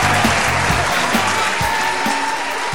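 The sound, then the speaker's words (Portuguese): An audience applauds in a small auditorium, a steady dense wash of clapping that holds at an even level, with a voice briefly heard over it. “Aê, as palmas!”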